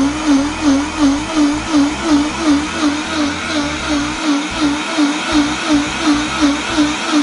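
A lidded kitchen blender, switched on and grinding its contents, gives a steady loud motor whir with a regular pulsing rhythm as the load churns, running alone for several seconds.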